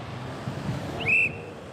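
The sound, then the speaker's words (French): Someone blows a single short, high whistle blast that stands out briefly over a low, steady background rumble. “Siffle”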